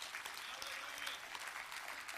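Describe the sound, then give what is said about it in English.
A church audience claps in praise during a worship service: dense, continuous applause of many hands, loud and even throughout. “give the Lord a hand clap of praise in this house.”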